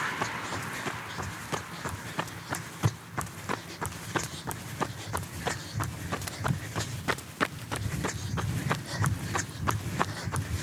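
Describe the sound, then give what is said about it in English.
Running stride footsteps during a timed workout interval: many quick, evenly spaced footfalls in a steady, driving rhythm, with sharp impacts over a constant background rumble. “We're gonna do one more stride. In 3, 2, and 1.”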